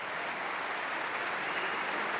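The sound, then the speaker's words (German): Concert audience applause during a standing ovation as the conductor is called back to the stage, a continuous, even roar of clapping with no breaks. “Und Stéphane Deneuve wird doch mal vom Publikum, das hier steht, in den Reihen, überall Standing Ovations, auf die Bühne geholt.”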